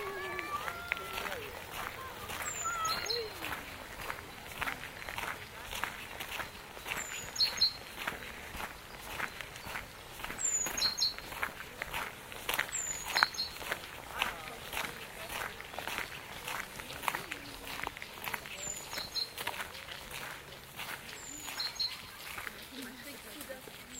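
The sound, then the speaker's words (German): Footsteps walk along the shore of a pond in a steady, quiet rhythm. Birds chirp briefly several times, and voices can be faintly heard in the background. “Wir laufen weiter am Ufer des Annateichs entlang.”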